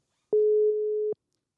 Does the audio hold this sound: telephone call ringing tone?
yes